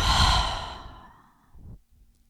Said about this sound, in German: Halte deinen Atem kurz oben und dann öffne deinen Mund und atme alles wieder aus.